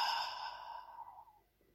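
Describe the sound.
A single long exhale through the open mouth during a relaxed breathing exercise as the arms are lowered. It is breathy and soft, and it fades out gradually over about a second.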